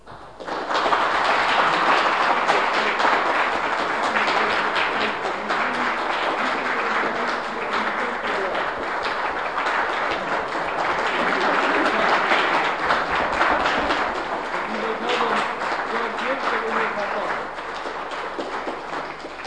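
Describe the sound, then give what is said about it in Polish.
An audience gives a big, sustained round of applause as thanks, with dense clapping that holds steady and loud throughout. “myślę, że taki ogromny aplauz, czy ogromne brawo teraz wyrazimy jako podziękowanie za to, co mogliśmy od niego przyjąć.”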